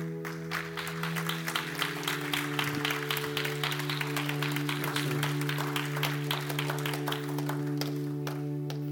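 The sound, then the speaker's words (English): A church audience claps steadily to welcome new members. The dense applause runs throughout over a sustained, held musical tone. “You can clap. Why don't you guys come on? If you are one of our new members, come on up.”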